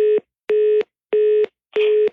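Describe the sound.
Telephone busy tone after the other party hangs up: four short, evenly spaced steady beeps at one mid pitch, each about a third of a second long, repeating alone with no voices.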